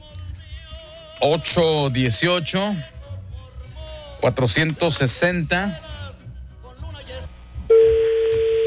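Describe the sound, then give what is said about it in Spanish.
A telephone tone sounds as a call is placed to someone's mother, with a single steady, mid-pitched tone rising straight out of the end of lively talk and holding firm. “Márcale a mi mamá”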